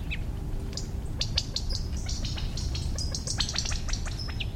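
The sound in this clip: Quail parents call after their chicks with many short, high chirps and tweets. The calls are scattered irregularly over a steady, noisy outdoor background.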